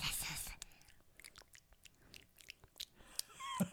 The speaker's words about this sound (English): Nothing but a lot of lip smacking. That's how we taste our food.